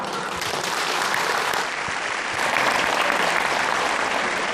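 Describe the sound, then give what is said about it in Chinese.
Loud, sustained applause from a large crowd at the opening ceremony of the 36th tourism Naadam festival in Inner Mongolia, a thick, continuous wash of clapping that swells a little stronger partway through. “现在，让我们用热烈的掌声欢迎自治区党委书记、自治区人大常委会主任王伟忠同志宣布那达慕开幕。”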